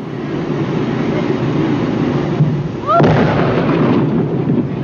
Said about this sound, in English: The dynamite was detonated at 3:45 p.m.